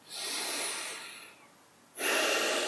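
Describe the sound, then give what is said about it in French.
Deep breathing: one long, airy breath that fades out, a short pause, then another strong breath begins, heard alone. “Puis je vous invite à prendre quelques grandes respirations profondes, trois grandes respirations profondes.”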